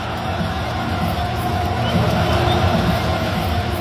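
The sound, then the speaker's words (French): RC Lens supporters cheering at Stade Bollaert as a Coupe de France triumph is celebrated: a dense, steady crowd roar with scattered shouts and whoops mixed through it. “Et c'était l'ambiance des grands soirs hier au Stade Bollaert.”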